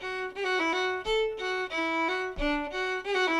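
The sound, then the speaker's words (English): Solo fiddle plays Green Mountain with short rolls in place of quarter notes, each roll a grace note and slurred triplet on one bow stroke. Quick ornamental flicks break up otherwise sustained bowed notes at moderate volume. “So instead of that F sharp as a quarter note, I'm playing something like a slurred triplet, the note, and then the note below, and the note again, but I'm putting a grace note before it and playing it all on one bow stroke.”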